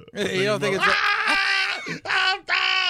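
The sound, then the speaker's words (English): A person imitates a blood-curdling scream: a loud, high, strained shriek in three long bursts separated by brief breaks. “And then you're reeling. Oh, you're screaming. Bloody murder.”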